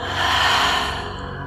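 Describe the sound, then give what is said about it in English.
A long, loud exhale in a meditation breathing exercise: a broad, breathy rush that swells early, then slowly fades over about a second and a half, with no talking. “Once more, longest inhale of the day. Longest, loudest exhale yet.”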